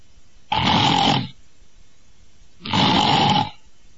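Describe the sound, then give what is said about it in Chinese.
A voice imitates snoring: two separate rasping, throaty snores of almost a second each, with a clear pause between them. They are loud and stand alone. “里边有打呼噜的声”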